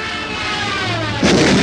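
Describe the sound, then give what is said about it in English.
Explosion effect of a flying bazooka with radar control striking the enemy in a wartime scene: a steady roaring noise that bursts into a louder, harsher blast near the end. “A new secret weapon did this to the foe.”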